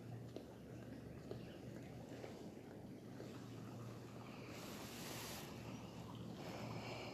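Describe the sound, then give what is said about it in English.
A stream flowing beside a forest, heard from a bridge: a steady, even rushing wash that turns brighter and hissier for a couple of seconds past the midpoint, under a faint low hum. “I'm outside on a bridge overlooking a very nice stream and forest.”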